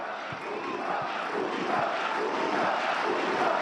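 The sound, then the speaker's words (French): A football stadium crowd in Varaždin chants Luka Modrić's first name, a sustained roar of massed voices that builds slightly in loudness over a few seconds. “Alors que le prénom de Modrić est scandé par le public de Varaždin.”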